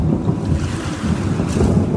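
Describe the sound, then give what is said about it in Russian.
Stormy sea waves and wind, with high swells throwing up spray, make a steady, loud, low roar of surf and gusting wind throughout, with no voices. “Валы катились выше и выше, обдавая водяной пылью.”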